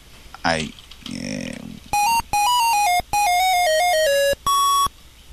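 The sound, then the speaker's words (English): A mobile phone ringtone with a jungle theme plays loudly. It opens with roaring animal-like calls and a rumbling growl, then moves into several bursts of bright electronic beeping notes that step through a short melody. “Is that your phone? Yes, my ringtone is Jungle Hunt.”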